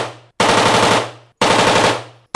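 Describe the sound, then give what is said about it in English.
Machine guns firing at a shooting range in Las Vegas: two loud, sustained bursts of rapid automatic fire, each about a second long with a short pause between, plus the fading tail of an earlier burst. “At this firing range in Las Vegas, gun enthusiasts shoot machine guns.”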